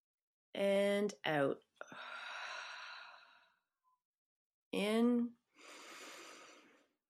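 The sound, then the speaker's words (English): Deep breaths in and out close a guided relaxation exercise: two long, airy, hissing breaths, each preceded by a brief spoken cue, the first breath lasting longer and fading out gradually. “let's just finish with 3 breaths together. In”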